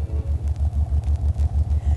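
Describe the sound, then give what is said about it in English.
A car engine idles in a garage, a low, rhythmic throbbing rumble that pulses steadily at an even pace, with no voices. “pulled into the garage, and fell asleep as usual. There was only one problem. The car was still running.”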